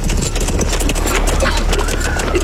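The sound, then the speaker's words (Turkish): Galloping horses as horsemen arrive: a rapid, continuous patter of hoofbeats that stays loud and dense throughout. “Atlılar geliyor efendim. Atlılar.”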